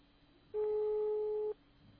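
Ringback tone on a prank phone call that goes unanswered: a single steady, mid-pitched beep lasting about one second, alone against faint hiss.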